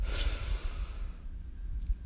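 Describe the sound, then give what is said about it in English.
A deep breath drawn in during a guided breathing exercise, a breathy rushing sound that is fullest at first and tapers off over about two seconds, with no talking. “And we breathe in deeply, hold at the top, and release with a loud sigh. So breathe in and out.”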